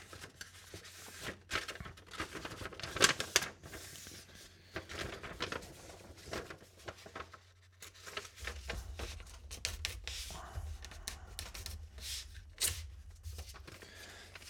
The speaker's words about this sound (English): I'm curious to see how interesting I can make myself trying to fold it sound. okay, I will rip off the base.